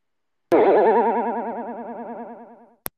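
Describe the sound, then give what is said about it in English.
Sound offered as a kangaroo call: one long, warbling, wobbly tone with strong vibrato that starts loud and slowly fades over about two seconds, bracketed by sharp clicks. “Is this how a kangaroo sounds like? Is this how it sounds like?”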